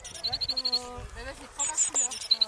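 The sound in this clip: European greenfinch song, two bursts of rapid high chirps in quick trilled runs, heard over a person talking.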